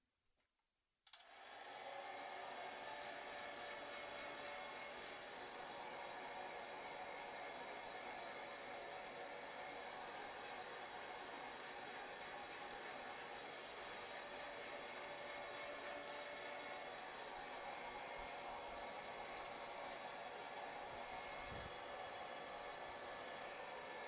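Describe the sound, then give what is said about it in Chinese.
A hair dryer blows while drying hair: it switches on abruptly, then gives a steady, unbroken whooshing hiss with a faint whine that lasts to the end. “身体的清洗结束了，我来帮你把头发吹干吧，这样湿湿的话是会感冒的呢。”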